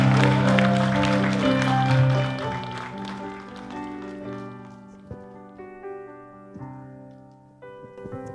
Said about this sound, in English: Can we give her a big, big hand in this place right now?